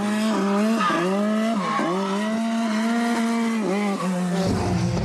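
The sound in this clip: A car slides with its tyres squealing, a loud, steady tonal drone that holds throughout, broken by a few brief dips in pitch, with no talk over it.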